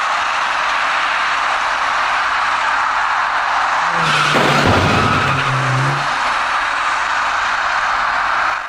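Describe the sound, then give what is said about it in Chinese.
Tires screech in a brief, loud skid at a road intersection where a dark car going straight meets an electric bicycle turning left, set against a steady wash of traffic noise that runs through the whole clip. “可是一位司机完全没有想到自己会在路口里面陷入交通事故的麻烦中。您注意看，”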